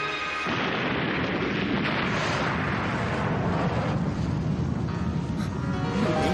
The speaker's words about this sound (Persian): منفجر کردم.